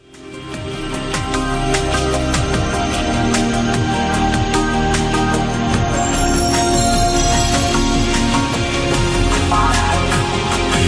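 A bell rung in a parliamentary chamber to call members to a vote, a loud, continuous, rattling ring that holds steady for about eleven seconds.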